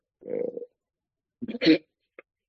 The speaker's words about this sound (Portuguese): Esse nem foi uma onomatopeia, foi só um grunhido. Esse grunhido resume tudo, pá.